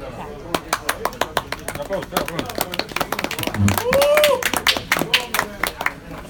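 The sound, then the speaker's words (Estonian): Applause for a story queen at a gathering: a dense, steady patter of many hands clapping with voices talking and calling out over it throughout. “Aplaus”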